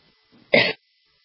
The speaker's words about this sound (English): Excuse me, sorry, allergies are getting to me, and it's affecting the asthma. Right, I had to cough.